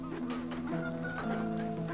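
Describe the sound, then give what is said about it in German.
Chickens cluck softly in a farmyard, their overlapping, throaty calls running continuously and quietly throughout. “Hühner laufen gackernd über den Hof.”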